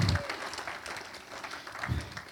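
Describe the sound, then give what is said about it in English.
Church audience clapping their hands during a worship service, a dense, steady patter of many hands that holds at a moderate level throughout. “Give a hand clap to the Lord Jesus Christ.”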